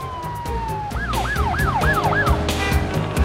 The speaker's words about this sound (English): A police officer directs traffic. An ambulance speeds by, as does a fire engine.